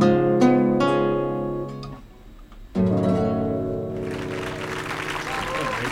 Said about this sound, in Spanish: Están los aplausos. Muy bueno.